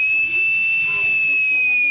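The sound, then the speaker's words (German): Shrill, steady whistling with a hiss from the emergency warning whistle of a breathing apparatus air cylinder charged to 330 bar, holding one high pitch loudly and without a break. “Dann muss man noch testen, ob die Notpfeife geht.”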